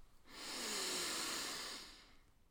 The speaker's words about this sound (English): We're going to take a breath